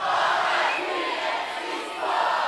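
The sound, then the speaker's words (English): A crowd shouts a tribute in unison at a live MC and DJ event, one sustained, loud collective yell lasting a couple of seconds with no break. “I want everyone to shout R.I.P. MC Sparks. Can you do that for me? Yeah? All right, after three, R.I.P. MC Sparks. One, two, three.”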